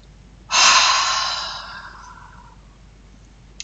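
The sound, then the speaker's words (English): A single forceful 'ha' breath out during a breathing exercise. The loud, airy rush begins abruptly and then fades over about a second and a half, with no talk. “Okay, so that's your three ha breaths.”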